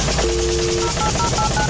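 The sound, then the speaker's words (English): A radio station's 'Fairness to Fans' contest machine sound effect fires up. It gives a held electronic tone followed by a quick run of short repeated beeps over a dense, noisy hum. “That's the Fairness to Fans machine firing up.”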